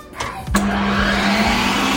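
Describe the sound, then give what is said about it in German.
An electric ice cream machine in a holiday house switches on with a brief knock, then runs as a loud, steady whirring motor hum that holds an even pitch to the end. “Jo, und da wurde das Eis angeschmissen.”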